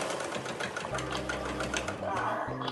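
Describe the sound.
A sewing machine whirs steadily as a resident of a migrant shelter stitches cloth face masks. The motor runs in an even drone throughout, with a person talking over it.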